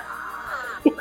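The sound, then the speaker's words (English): A voice imitates a hawk's screech with a drawn-out, strained, wavering cry, followed by two short, harsh, louder bursts. “so the rest of you all just hear this sort of screeching. It's just like,”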